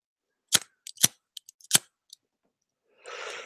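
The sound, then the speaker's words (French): A lighter being struck to light a cigarette: a quick series of sharp, bright clicks and flicks, then a soft, steady hiss for about half a second. “Bon, oh, je fume, hein. je suis désolé, ne fumez pas, c'est très mauvais. Si j'ai du feu.”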